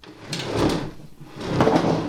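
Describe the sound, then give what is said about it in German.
A desk pushed across the floor against a wall, heard as two loud, broad scraping and sliding bursts separated by a brief pause, with no voices. “lass uns doch mal den Schreibtisch da an die Wand drücken.”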